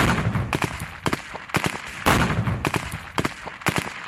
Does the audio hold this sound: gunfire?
yes